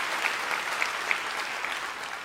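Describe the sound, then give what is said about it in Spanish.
Congregation clapping during a church service, a soft, steady patter of many hands with a few sharper individual claps standing out above the mass. “Vamos, iglesia, si vas a aplaudir, hazlo con ganas el día de hoy.”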